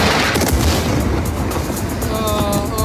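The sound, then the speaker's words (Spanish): Bombs exploding at midnight during an air strike on Gaza: a loud, dense roaring rumble that holds steady throughout, with no clearly separated blasts standing out. “Y esta medianoche las bombas han vuelto a caer en Gaza.”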